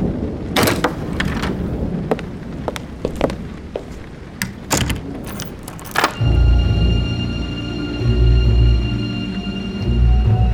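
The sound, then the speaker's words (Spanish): A thunderstorm with rain beating hard against windowpanes in a dark hallway: a series of sharp knocks and thuds, then a deep, sustained rumble that rolls on loudly to the end. “solo iluminado eventualmente por el relampagueo de la tormenta. La lluvia repiqueteaba con fuerza en los cristales.”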